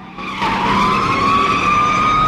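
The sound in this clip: Tires screech loudly as a car corners hard during a police car chase. The squeal is sustained and steady, rising slightly in pitch, with engine noise beneath.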